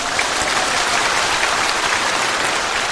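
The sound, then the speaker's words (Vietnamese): Audience applause at a monk's talk: a dense, steady wash of clapping hands that holds evenly throughout without a clear start or end, with no speech over it. “thì chúng ta phải vỗ tay vì thái độ sám hối.”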